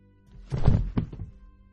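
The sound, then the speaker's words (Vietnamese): A body falls onto grassy ground with a heavy, muffled thud, followed closely by a smaller dull knock, then quiet. “Một tiếng bịch phát ra khiến cho cô khẽ giật mình. Là tiếng của một vật gì đó va chạm với nền đất. Là tiếng cơ thể của gã dị nhân kia ngã vật ra, nằm sóng xoài trên đám cỏ dại.”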